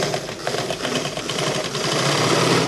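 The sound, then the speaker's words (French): Pedal pressed, a sewing machine in a sewing workshop runs with a fast, dense mechanical whir and rattle, steady and continuous, growing slightly louder toward the end. “Ce qui me plaît dans la couture, c'est quand j'appuie la pédale et que ça tourne.”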